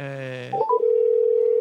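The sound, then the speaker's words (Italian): A telephone call is placed: a voice is heard briefly, then a couple of short blips, then a steady mid-pitched ringing tone that holds unbroken to the end. “Io intanto sto chiamando, vai, vai.”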